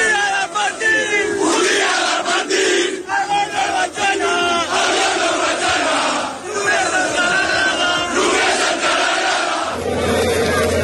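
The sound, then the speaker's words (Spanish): A large crowd of football fans celebrating a league title chants and roars loudly, with rhythmic massed shouting that swells and dips throughout. “Eran sonidos de la fiesta de anoche, pero es que hoy hay más fiesta y una rúa que comienza y termina en el Camp Nou”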